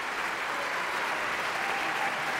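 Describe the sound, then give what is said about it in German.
Dense, steady applause fills an opera house for a singer at the curtain call, loud and continuous throughout, with no voices standing out. “Das ist der extra Applaus für Michael Laurenz.”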